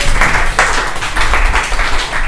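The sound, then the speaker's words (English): Audience applause for the guests at a live show: dense, steady clapping from many hands that holds a fairly loud, even level throughout. “Hey guys, let's give it up one more time for our guests.”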